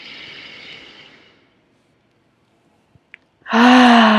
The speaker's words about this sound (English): let's just take a breath in here with that.